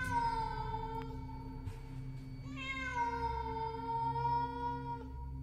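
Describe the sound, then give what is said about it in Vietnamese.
A cat meows from a dark underground stairway passage: two long, drawn-out harmonic meows, one after the other, loud and steady, with no voices. “Con mèo chạy xuống biến mất trong bóng tối, chỉ để lại những tiếng kêu meo meo vọng lại như đang muốn gọi Huy đi theo.”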